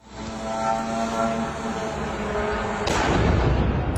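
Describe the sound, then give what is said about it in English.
A Russian drone exploding on the tenth floor of a block of flats in the Romanian border city of Galați. A steady engine-like drone runs for several seconds, then a sudden loud blast sets off a sustained rumbling roar. “That is the sound of a Russian drone hitting a block of flats in the border city of Galați.”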